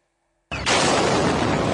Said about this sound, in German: Dieses Video zeigt, wie im Zentrum der Stadt Sumy im Nordosten der Ukraine zwei russische Raketen nacheinander einschlagen.